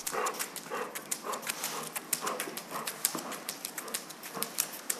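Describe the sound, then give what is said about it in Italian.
Paw steps of a dog walking at a slow gait with a light limp: many soft taps and claw clicks in a slightly uneven rhythm, fairly faint and continuous. “Senti questo tipo di zoppicatura? Si sente, no? Che è più leggera della precedente e che l'andatura è più lenta.”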